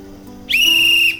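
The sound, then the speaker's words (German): A train conductor blows a whistle once, a single shrill blast that rises sharply at the start and holds steady for about half a second over a low rumbling background. “Der Schaffner blies in die Pfeife und hängte sie sich dann um den Hals.”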